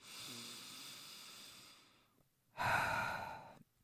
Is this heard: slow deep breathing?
yes

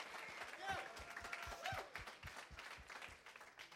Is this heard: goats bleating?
no

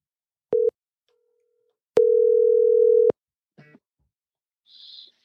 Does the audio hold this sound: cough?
no

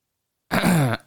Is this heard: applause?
no

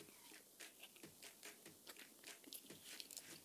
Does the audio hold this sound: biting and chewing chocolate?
yes

